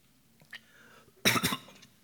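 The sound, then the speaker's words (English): Coughing after choking on a throat lozenge: a quiet stretch, then a sudden loud burst of two or three rough coughs that quickly die away. “excuse me, I have a throat lozenge in and I just choked on it.”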